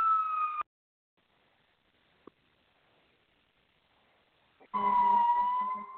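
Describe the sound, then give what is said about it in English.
Street sounds in Atlanta: an emergency siren wails, cuts off into near silence with a single faint click, then returns loud and steady near the end. “And as you can hear, I am out on the streets of Atlanta.”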